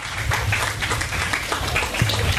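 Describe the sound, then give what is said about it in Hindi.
Audience clapping at a Hindi kavi sammelan poetry gathering: moderately loud, fairly dense hand claps with a loose, uneven pulse, continuing steadily throughout. “और आज के कवि सम्मेलन में चार चांद लगे उस सबके लिए आपकी तालियां जरूरी है।”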